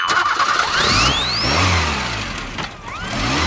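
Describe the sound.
Car engine starting and revving: a continuous mid-pitched engine roar with whining tones that climb in pitch during the first second and a half, a lower rumble in the middle, and another rising rev near the end.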